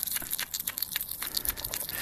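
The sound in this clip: A hedgehog eats at dusk, making many quick, crisp crunching and crinkling chews in a rapid, irregular stream.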